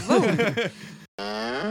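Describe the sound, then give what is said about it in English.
Cow mooing in a forest: a voice briefly sounds first, then after a short silence a long, steady, low moo rings out on its own. “this cow's just wandering around the forest, and they're just like, what a hideous cry.”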